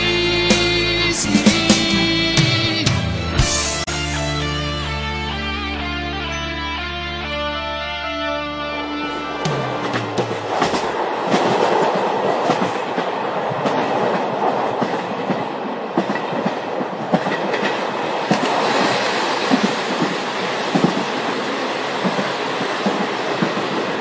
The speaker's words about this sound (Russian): На вас движется неуправляемый тепловоз. Повторяю, на вас движется неуправляемый тепловоз.